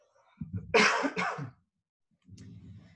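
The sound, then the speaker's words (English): Two harsh, breathy coughs come in quick succession, loud and sharp, with softer throaty sounds around them, then a short silence before a low, quiet vocal murmur. “lost my train of thought in the middle of a cough”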